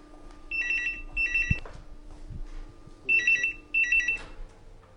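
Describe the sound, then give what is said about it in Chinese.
A telephone ringing in two pairs of bright electronic warbling bursts, four rings in all, fairly loud, with a few soft thumps between them and no voices. “你赶快来接电话。”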